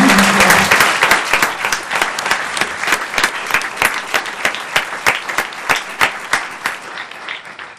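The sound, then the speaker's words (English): Audience applause at a nonprofit arts fundraising event celebrating money raised for grants. The clapping starts dense and loud, then thins into scattered, distinct claps toward the end, with no talk over it. “Let's give a round of applause for that.”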